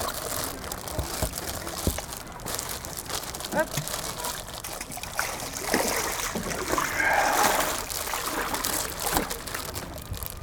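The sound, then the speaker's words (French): A plastic bag wrapped around a digital audio recorder to keep it dry while kayaking crinkles and rustles continuously, a fairly loud crackling texture that swells in the middle, mixed with light watery trickles. “Ça, c'est le bruit de mon sac plastique qui emballe mon enregistreur audio numérique. Bah oui, pour éviter de le tremper.”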